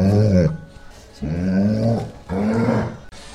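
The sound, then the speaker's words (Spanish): A dog growls in three low, rumbling bursts separated by short pauses, loud and alone. “la radio que escucha a mi perro.”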